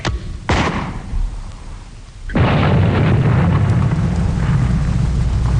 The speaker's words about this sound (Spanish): Señoras y señores, tenemos contacto con las fuerzas de artillería desplegadas en las montañas Watchung. Alcance 32 metros. 32 metros, señor. Proyección 39 grados. 39 grados. Fuego.